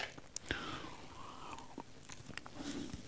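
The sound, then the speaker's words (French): A person drinking a little water, with faint mouth clicks and soft sipping and swallowing sounds, quiet and brief with no talk. “je vais boire un petit peu”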